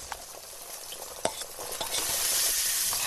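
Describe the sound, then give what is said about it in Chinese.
Dried chilies and tender ginger slices fry over a fire of chestnut shells, giving a steady hiss of sizzling oil. A few faint stirring clinks sit under it, and the sizzle swells louder toward the end. “板栗壳烧旺，干辣椒炸香，再加入嫩姜片”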